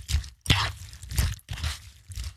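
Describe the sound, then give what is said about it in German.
Muesli is stirred in milk, making crunchy, wet scraping strokes. A few loud bursts come in an uneven rhythm, with short pauses between them. “Was ist das? Richtig, Müsli mit Milch umrühren.”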